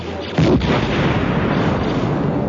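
Explosions blasting the tops off towers in a night battle: a sudden heavy boom followed by a dense, sustained roar of blasts and rumble that stays loud to the end.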